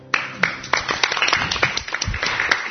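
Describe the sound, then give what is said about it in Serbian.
An audience claps in many sharp, uneven claps that quickly thicken into a loose patter of applause, moderately loud throughout. “Ćemo da tapšemo.”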